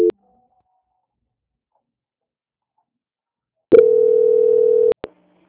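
A telephone line tone plays during a call transfer: a short blip, a long silence, then a flat, sustained mid-pitched tone of about a second, followed by a couple of sharp clicks.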